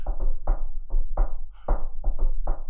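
Knocking on a wooden table in a quick, uneven rhythmic pattern, a series of hollow, fairly loud raps with short irregular gaps between them.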